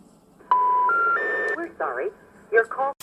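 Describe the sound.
Telephone dialing tones as a number is keyed in during a phone call, a steady electronic tone stepping up in pitch a few times, then brief bursts of garbled chatter.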